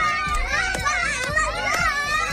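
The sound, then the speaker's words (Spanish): Many children shout and cheer together in the streets of Gaza, celebrating after a ceasefire agreement was announced. Their overlapping high voices form a loud, continuous clamour with a few sharper cries throughout. “Este era el sonido de las calles de Gaza una vez conocido el acuerdo, niños que salían a festejar la esperanza de que se pare el genocidio y adultos que entonaban cánticos de fiesta.”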